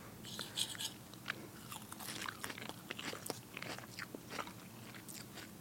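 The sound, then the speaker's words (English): Crunching bites of salad with white French dressing from the Chameleon Cafe: repeated crisp, moist chewing crunches of lettuce in an uneven rhythm, moderately loud and close. “Here is a bowl of salad with white French dressing from the Chameleon Cafe.”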